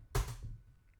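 A single press of the Enter key on a computer keyboard makes one soft, dull click with a brief fading tail, alone in a quiet background.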